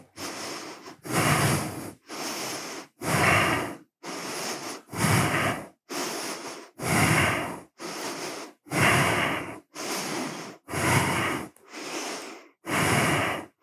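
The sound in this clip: Slow, deep breathing while a yoga pose is held with the hips pushed high. Many strong, evenly paced inhales and exhales come in a steady rhythm, each separated by a short pause.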